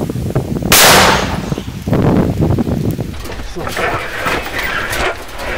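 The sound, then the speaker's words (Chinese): A Ukrainian Leopard tank's gun firing a single shot: a loud, broad blast near the start, followed by rumbling noise with voices talking. “Постріл!”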